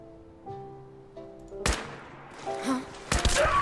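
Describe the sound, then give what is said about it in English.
Combat rifle gunfire in a video game: a few sharp, loud cracking shots burst out over quieter tonal game sounds, with the last shots coming in a quick close pair. “What is this combat rifle, this thing I picked up? Let's give this a try.”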